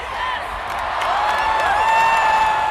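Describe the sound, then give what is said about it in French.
Crowd ovation in a stadium as a pastor enters the field at World Youth Day in Lisbon 2023, a roaring mass of cheering, whoops and scattered clapping that steadily swells louder. “Et lors de l'entrée sur la pelouse de Rodriguez Pereira, le pasteur ultra suivi par les évangéliques, c'est l'ovation.”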